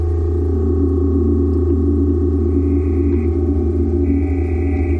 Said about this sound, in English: And these different sounds coming in, are these different oscillators? Different oscillators, and I have a mixing desk on the bottom so I can fade in the different sounds.